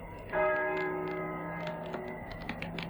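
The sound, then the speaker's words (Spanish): Church bells toll at nightfall for evening prayer. One loud strike opens with a rich ring of overlapping tones that slowly decay, quiet overall. “¿Oyes? Las campanas doblan.”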